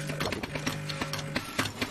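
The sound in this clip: Espresso machine brewing a shot: a steady low pump hum with rhythmic pulsing clicks repeating several times per second.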